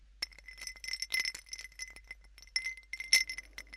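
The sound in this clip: Ice clinks in a drinking glass, a flurry of many light, bright chinks and small rattles in an irregular rhythm. They are faint and heard alone, with no voices.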